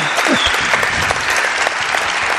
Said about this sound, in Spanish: Pido un aplauso para él.